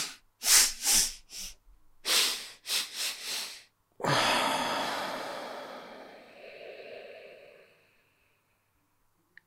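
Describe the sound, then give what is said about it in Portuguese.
Quick, repeated nasal inhalations in a breathing exercise: a few sharp sniffing intakes, a brief pause, another short series, then a long, steady breathy rush that gradually fades out. “Inspiramos rápido. Ou inspiramos rápido e voltamos a inspirar.”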